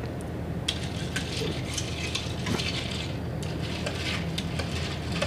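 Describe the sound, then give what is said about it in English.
A spoon stirs three-ingredient drinks made with a concentrate and topped with soda water, giving a steady, faint stream of light clinking and scraping with small irregular ticks throughout. “All right, and then we're just topping those off with soda water. We'll give them a stir, and then we're ready to go.”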